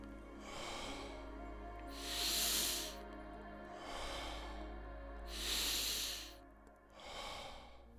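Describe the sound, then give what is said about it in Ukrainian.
Slow, deep breathing during a guided relaxation exercise, soft airy inhales and exhales alternating in a calm rhythm over a low steady drone, with no talking. “Вдихай спокій, видихай напруження.”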